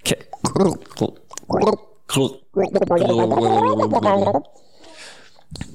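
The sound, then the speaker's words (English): A person makes a vocal impression of gargling, a sustained bubbling, warbling voiced tone lasting over a second, preceded by short bursts of talk. “Okay, well, that was called the gargle.”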